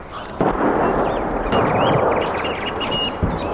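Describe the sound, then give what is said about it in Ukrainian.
Artillery fire booms during a preparatory bombardment before an assault near Bakhmut. Heavy rumbling blasts merge into a continuous roar with a few sharper onsets, and faint bird chirps sound above. “Зараз буквально артпідготовка і далі буде бій.”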